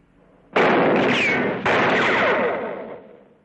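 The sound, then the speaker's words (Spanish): A gunshot fired to graze a man in a 1960 western film: a sudden loud report, then a second sharp burst about a second later, with a long, rumbling tail that fades away. “Dispara rozando a Chris para provocarle, pero este sigue fumando impasible, lo cual desconcierta aún más al joven.”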